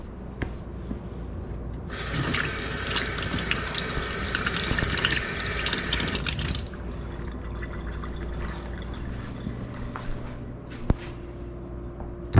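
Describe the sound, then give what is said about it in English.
Lemons are rinsed under running tap water. A loud, steady rush of water flows for about four and a half seconds, then stops abruptly and leaves a softer background hum. “so I'm going to use 4 lemons. And let's rinse the lemon.”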